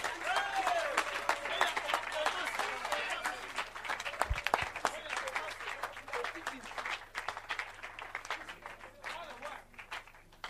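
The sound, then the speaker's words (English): A church audience clapping their hands during a service, with dense, steady clapping that runs the whole way through and voices speaking over it. “Clap your hands, clap your hands.”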